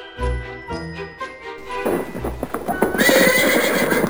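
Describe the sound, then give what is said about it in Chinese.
A horse-drawn carriage setting off: a few steady hoof clip-clops, then a busier clatter of hooves with jingling harness and a horse's whinny, growing louder toward the end. “这时候马车已经准备启程了”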